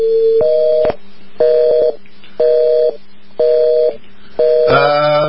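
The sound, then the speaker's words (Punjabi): Call-progress tones on a telephone call dialed to Pakistan that goes unanswered: five steady electronic beeps about a second apart with a low hum between them, the last beep harsher and richer. “ਮੈਂ ਕਾਲ ਤੇ ਪਾਕਿਸਤਾਨ ਨੋ answer, ਠੀਕ ਹੈ ਜੀ, ਉਹਨਾਂ ਨੂੰ ਬਾਅਦ ਚ ਉਹਨਾਂ ਨਾਲ ਟਰਾਈ ਕਰ ਲੈਂਦੇ ਹਾਂ।”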